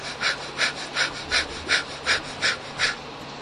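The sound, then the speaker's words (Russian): A person demonstrates a rapid 'fire' breathing technique for awakening sexual energy: eight quick, forceful, evenly spaced breaths in a steady rhythm, each a short hissing puff of air, with no talk. “It's like this. You breathe like this. Вы дышите вот так.”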